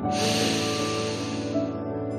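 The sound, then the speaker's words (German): A deep breath in during an evening meditation: a long, steady, breathy inhale over soft sustained background music that gently tapers toward the end. “Atme tief ein und aus. Einatmen.”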